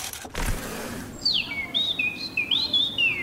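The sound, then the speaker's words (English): A small bird chirps outside a window, giving a run of quick, high, sweeping chirps that begin after a short quiet stretch and continue to the end over a soft background hiss. “Oh, that's what that pesky birdie outside the window has been saying since sunrise. You mean this little birdie?”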